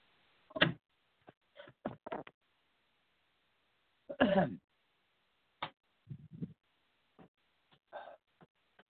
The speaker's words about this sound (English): God, I hate when this happens. I get a sneezing fit while I'm on the air.